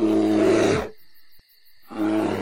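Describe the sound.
A bear roars in a deep, rough, harmonic bellow that cuts off after nearly a second. After a short near-silent gap, a second roar swells in, loud and with no talk.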